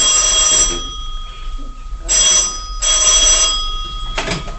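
A telephone rings loudly in a few separate bursts of bright, rattling bell tone, with short pauses between the rings.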